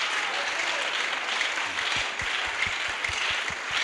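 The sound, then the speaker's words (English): A church audience claps and applauds during a worship service, producing steady, dense, sustained applause that continues for the whole clip. “can we clap for Jesus”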